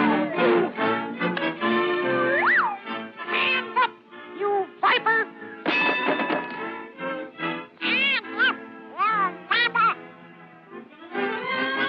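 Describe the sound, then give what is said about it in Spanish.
Squawky, quacking cartoon duck voice chatters in many rapid bursts with wavering, swooping pitch, filling nearly the whole stretch with only brief pauses and no other talk. “En 1934, Mickey le dio un papel a un actor que se convertiría en su competidor, el muy juvenil Pato Donald.”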